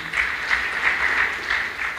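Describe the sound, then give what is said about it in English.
Hand clapping from a church audience during a sermon: a steady, moderately loud patter of many hands, slightly pulsing but continuous throughout. “You have clapped your hands, but I want you to agree.”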